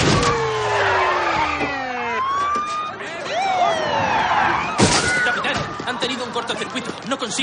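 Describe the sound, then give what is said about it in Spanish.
Police cars arriving at a chaotic city street where debris falls from a crane-struck office building: swooping siren tones and engine noise mixed with voices, broken by a sharp crash-like slam partway through. “Los coches de policía llegan.”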